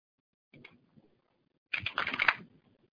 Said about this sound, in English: if you go to the Advanced Filters and you type in, and then let's type in India for the program country.